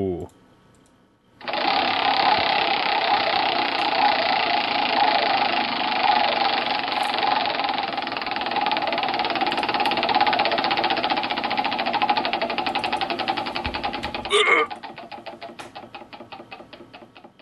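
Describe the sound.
A prize wheel spins, its pointer rattling over the pegs in a dense, loud stream of rapid clicks for about twelve seconds. The clicks then slow to separate ticks as the wheel comes to rest.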